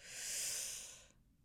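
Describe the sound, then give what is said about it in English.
A single slow breath drawn in through the nose during a breathing exercise, a soft airy hiss lasting about a second before fading to near silence. Quiet, with no voices. “Inhale through your nose.”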